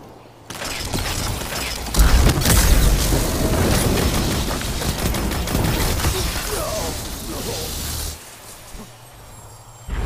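Gunfire and blasts in the video game Destiny 2 during a zone-capture match. Dense, loud bursts of shots and impacts pile up for several seconds, then drop back to quieter game sounds.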